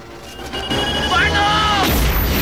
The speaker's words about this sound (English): Rico takes a small metal conical device and loads it into a bazooka.